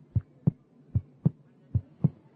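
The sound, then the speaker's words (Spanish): Heartbeat of a person riding a bicycle, three paired lub-dub beats of soft, low thuds at a steady, moderately quick pace, faint and with no other sounds. “mientras él iba andando en bicicleta y pues iba capturando el sonido de su latido del corazón. Eso es lo que estamos oyendo.”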